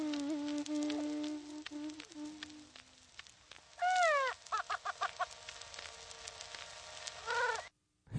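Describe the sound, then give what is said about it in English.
Calls of a pinnated grouse, or prairie chicken: a long, steady, low hollow tone, then a loud burst of rising, wavering cackles, several short repeated notes and one last brief cackle. “Here, though, is a pinnated grouse, or sometimes known as a prairie chicken. Here is the sound of the bird.”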